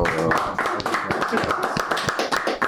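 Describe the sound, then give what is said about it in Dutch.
A small round of applause greets a guest as a few people clap in short, uneven bursts. The sharp, separate claps mix with voices of people talking and calling out over them. “Klein applausje.”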